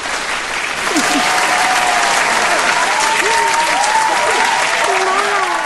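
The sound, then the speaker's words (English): A studio audience applauds to welcome a guest. Dense, steady clapping swells quickly and holds, with scattered whistles cutting through the sustained applause. “We're giving you a little applause as well here, man.”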